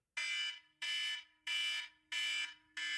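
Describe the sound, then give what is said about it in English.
An electronic alarm sounds as a timer signal, blaring five harsh, loud pulsed tones in an even rhythm, the last one cut short, with no talk. “you can hear that alarm at your end”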